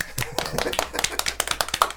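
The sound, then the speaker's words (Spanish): Scattered hand claps from a small group at the end of a live talk show, many quick sharp claps of uneven rhythm, moderately loud and heard alone. “Aplausos.”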